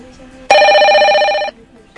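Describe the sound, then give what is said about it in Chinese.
An electronic telephone-style bell rings once for about a second, a bright, steady buzzing tone with a fast warble that starts and stops abruptly, loud against a faint background hum. “等下铃声响的时候就开始讲了”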